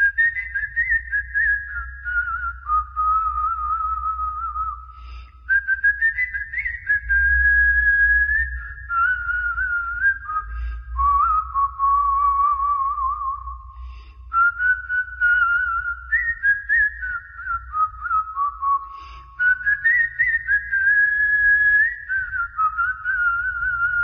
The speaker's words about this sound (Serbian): Sviram okarinu, sviram na listu, sviram i usnama izvodim melodije zviždukom.